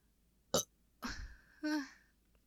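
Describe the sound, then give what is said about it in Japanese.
A person's burp, short, low and throaty, heard quietly among a couple of other brief mouth or breath noises, with no talking. “ゲップも出ちゃったけど”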